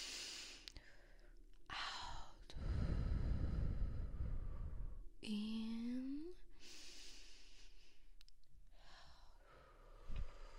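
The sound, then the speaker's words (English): A person breathes deeply in and out. Long, loud, airy breaths rise and fall in slow cycles, with a short voiced sound between them. “Just breathe. In. Out. In.”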